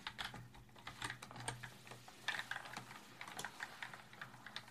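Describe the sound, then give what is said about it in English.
Faint, quick keystrokes clatter on a computer keyboard as a password is typed at a bank, forming an irregular run of many light clicks with no voices. “let's type in my password.”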